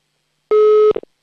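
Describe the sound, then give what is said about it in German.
A telephone ringback tone after dialing: one steady mid-pitched tone, followed by a few short clicks. “Oh, Freizeichen haben wir zumindest schon mal.”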